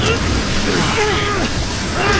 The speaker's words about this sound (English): It's no use! We can't do it! Even the Triumph can't take on this storm!